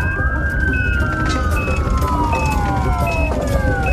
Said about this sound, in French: Les ambulanciers l'emmènent sous les lumières bleutées et l'emportent au plus vite à l'hôpital du Sartilement, tout proche.